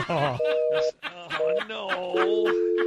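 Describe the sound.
Touch-tone keypad beeps as an international phone number is dialed: a few short, steady dual tones sound over people talking.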